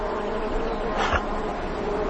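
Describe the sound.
Bees buzzing beside their hives: a continuous, even drone, with one insect swelling briefly louder as it passes close around the middle, and no voices.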